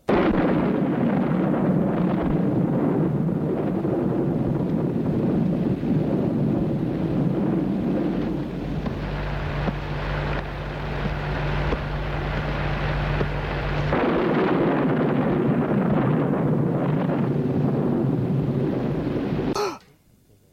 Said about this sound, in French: L'électricité s'éteint, l'orage gronde.